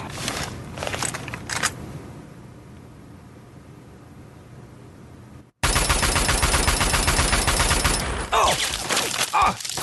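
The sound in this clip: Automatic gunfire from a turret in a video game: a dense, rapid rattle of shots. A quieter, noisy stretch gives way midway through to loud, sustained bursts of fire that continue to the end.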